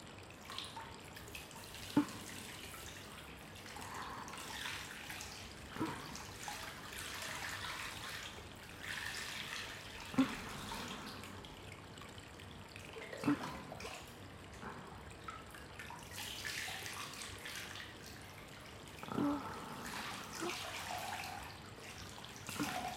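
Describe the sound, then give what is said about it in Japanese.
Hot water is poured again, topping up water that had cooled, and runs steadily with a soft, continuous splashing. A few louder splashes stand out along the way, and no one speaks. “ちょっと冷めてますね。もう一度お湯かけますね。”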